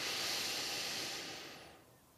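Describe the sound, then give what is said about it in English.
A slow breath out during a mindful meditation counting exercise, a soft, quiet airy hiss that gradually fades away toward the end, heard alone without speech. “And this is one of those times where I don't mind my mic picking up my breath.”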